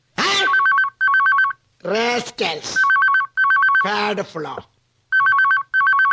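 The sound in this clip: A telephone rings in three pairs of short electronic bursts, and people talk loudly between and over the rings.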